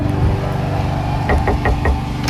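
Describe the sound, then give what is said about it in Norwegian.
Four quick knocks on a door, evenly spaced and sharp, rise over a steady low hum that runs underneath. “denne veka så kunne jeg banke på, jo, superstrikkementor Siv”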